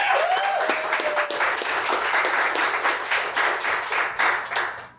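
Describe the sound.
An audience welcomes a Sit, Stay, Read volunteer to the stage with brisk, steady clapping. A short whistle cuts through at the start, and the applause tapers off at the very end.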